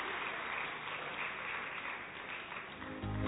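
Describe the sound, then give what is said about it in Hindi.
An audience applauds to welcome a guest, with dense, steady clapping from many hands that stays loud throughout. “जोरदार करतल ध्वनि से हम भाई साहब का स्वागत करते हैं।”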